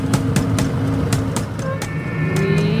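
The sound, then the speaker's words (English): A taxi accelerates away: a loud, steady droning engine that rises slightly in pitch toward the end, with a few sharp ticks over the rumble. “the taxi, accelerating without mercy, made off with her into the hinterland of deserted streets.”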